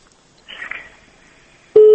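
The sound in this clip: A telephone busy tone after a call was cut off: a loud, steady single-pitch tone that starts abruptly at the very end, after a stretch of near silence and faint murmur.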